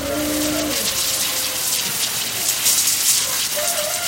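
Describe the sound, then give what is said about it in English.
Water sprays and spatters while steers are washed before a fair showmanship class, a steady, loud, rain-like hiss with faint low tones near the start and end. “We're washing our steers to get them ready for showmanship class.”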